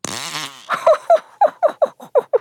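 A fart: one drawn-out buzzing blast, then a quick run of short, separate puffs, loud and with no talk.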